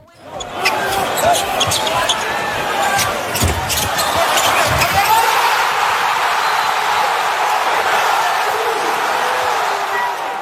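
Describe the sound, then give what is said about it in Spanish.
A basketball arena crowd at Madison Square Garden during a Knicks game, with a few sharp bounce-like knocks followed by a swelling, sustained roar as the winning basket is scored. “Ese era el sonido del Madison Square Garden en el momento en el que OG Anunoby anotaba la canasta ganadora para los Knicks”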